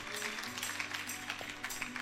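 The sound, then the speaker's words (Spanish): An audience claps during a church sermon on fasting, producing an even, continuous patter of many hands at moderate loudness from start to finish. “Dele palmas a nuestro Dios con todo el corazón.”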